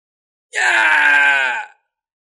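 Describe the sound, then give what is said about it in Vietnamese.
A single agonized human scream from cultivators overrun by a flood of beasts: one loud, strained, tonal cry lasting just over a second, then breaking off. “Truyền đến tiếng kêu thét thảm thiết của tu sĩ nhân loại”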